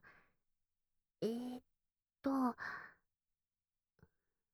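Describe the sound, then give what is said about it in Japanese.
A deep breath in and out comes as a faint breath, then two voiced, audible sighing breaths, quiet overall, ending with a tiny click. “一回深呼吸してみよっか。はーい。吸って。吐いてー。”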